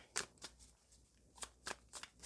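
Tarot cards being shuffled, heard as several faint, short riffling bursts spaced irregularly, with no voices over them.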